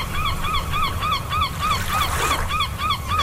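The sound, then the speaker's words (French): A seagull cries in many short, nasal, repeated calls at a quick, even rhythm, fairly faint over a low steady rumble. “La mouette est un palmipède qui vit en poésie. Entre culture et confiture, comme Paul Verlaine, vous aurez entendu son cri.”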